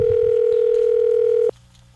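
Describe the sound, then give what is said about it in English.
A telephone dial tone, one loud steady pitch held for about a second and a half, then cut off abruptly, leaving a faint low background hum. “I'm dialing fast now. Here we go. Let's see if the person answers.”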